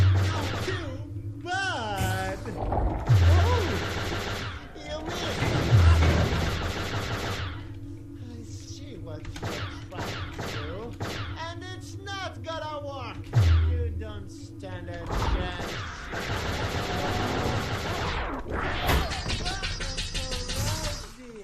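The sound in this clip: Gunfire in a video game: a few heavy, booming shots punch through dense, layered game sounds, with voices heard throughout.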